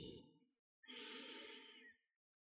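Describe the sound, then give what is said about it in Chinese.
Deep breath drawn in through the nose, a soft, airy rush held for about a second, quiet and heard alone. “接下来，我们来进行几次深呼吸。用鼻子吸气，”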